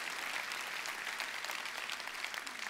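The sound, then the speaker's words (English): An audience applauds in a steady, dense wash of many hands clapping, holding an even, moderately loud level from start to finish. “Go ahead, you can clap for that.”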